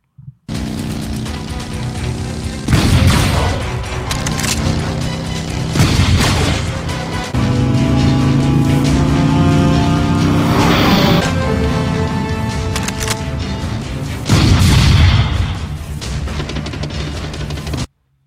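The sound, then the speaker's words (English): A Terminator-themed sound effect button plays a loud, dramatic synthesized score. Heavy booming metallic hits strike several times over sustained droning tones, recurring at roughly regular intervals. “Let's give you the Terminator button.”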